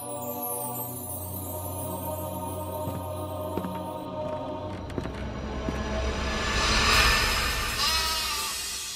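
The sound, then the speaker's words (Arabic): Sheep bleat from a flock, a few wavering, nasal cries rising over a steady low hum, growing louder toward the end. “قطيع الغنم فقط.”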